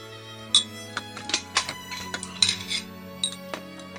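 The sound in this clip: Dishes and cutlery clink while a meal is being cooked at home: a long series of light, irregular metallic and ceramic knocks and taps, fairly quiet, with no talk.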